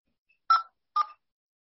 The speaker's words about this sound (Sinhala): මම හිතන්නේ ඒ මිස් මට කෝල් කරනවා. මම ආන්සර් කරලා බලන්නම්කෝ.